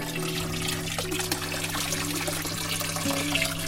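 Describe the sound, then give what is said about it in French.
Water trickling gently from a small non-electric water feature inside a house, a steady continuous babble and dribble with soft splashing that holds at an even, fairly quiet level throughout. “Et pendant des heures, je peux avoir la musique de l'eau. Et donc, c'est une musique qui fait du bien.”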